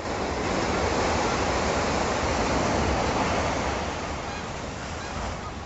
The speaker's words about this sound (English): this is the sound of the ocean in Monterey, California, near the aquarium there.